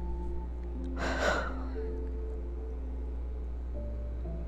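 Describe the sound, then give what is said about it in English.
A single deep inhale during a guided breathing exercise, brief and moderately loud over a steady, low tonal drone that continues throughout. “Gonna breathe in”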